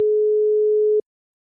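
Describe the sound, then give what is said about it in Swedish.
A steady telephone ringing tone plays after a number is dialed for a prank call. It holds one pitch for about a second and then cuts off into silence. “Jag slår in numret.”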